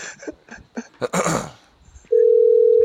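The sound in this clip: A steady telephone dial tone sounds after a call is hung up. It is a loud, unbroken mid-pitched hum that follows a few brief muffled noises and throat sounds.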